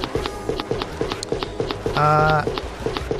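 Quick, evenly spaced footsteps from a character walking around in a video game. They tap out a steady, brisk rhythm of many light thuds, and a short electronic tone sounds briefly partway through.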